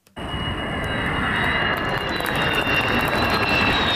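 Jet aircraft engines roaring at a military airfield near Ankara, Turkey: a loud, broad, continuous roar that rises abruptly after a brief quiet moment and holds steady, with a thin high whine running above it.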